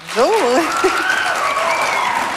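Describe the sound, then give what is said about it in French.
Audience applause rises quickly into a steady, dense wash of clapping that holds to the end, with a voice briefly sounding over it near the start. “On l'applaudit?”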